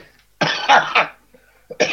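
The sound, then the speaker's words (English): A person coughs in a few harsh, rough bursts close together, falls quiet briefly, then starts coughing again at the end. No words are spoken. “The cough I have right now is caused by a chemical problem in soil.”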